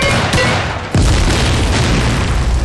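Artillery gun firing a rapid-fire series: a sharp burst, then a deep, heavy boom whose loud rolling rumble carries on to the end, with no voices.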